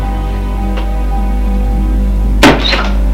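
A door being shut as someone leaves a room, heard as a single dull thud near the end with a short rattle after it, over a steady low hum.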